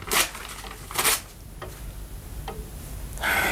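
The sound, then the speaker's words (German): Paper, a written death sentence, being torn up: two short, crisp rips followed by a longer tearing rustle at the end. Faint, with quiet noise in between. “Ich darf es also zerreißen. Ja. Ich bitte Sie darum.”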